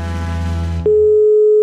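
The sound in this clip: A telephone tone sounds while a call is being returned: after a short buzzy, harmonic-rich burst, a single steady mid-pitched tone starts partway through and holds loud and unbroken to the end.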